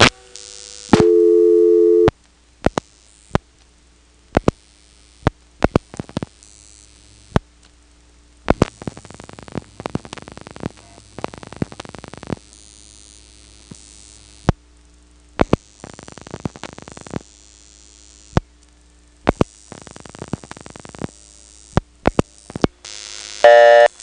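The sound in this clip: Sharp clicks of a telephone call as all seven digits of a 482-9000 group number are dialed through an old switching system with a director, many brief irregular clicks over a low steady hum, with a short tone burst near the start.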